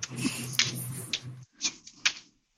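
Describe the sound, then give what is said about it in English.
Tarot cards are flipped through by hand, making several short papery swishes and snaps with brief pauses between them. “And she's flipping cards. As I'm flipping, I know, right? So, and I'm flipping and I'm flipping and I'm trying to find some stuff.”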